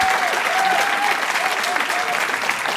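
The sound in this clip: Audience applause for two guests on a live comedy show, a steady, dense clapping that holds at an even level throughout.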